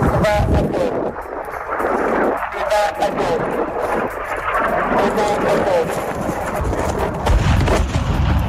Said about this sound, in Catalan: És el so de les bombes que han captat els micròfons de Catalunya Informació, bombes continuades que es veien i es sentien des d'Esderot,